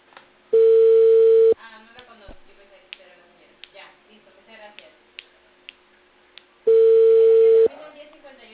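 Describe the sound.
Two ringback tones of an outgoing telephone call, each a loud, steady tone of about one second, are separated by several seconds of talk and faint clicks.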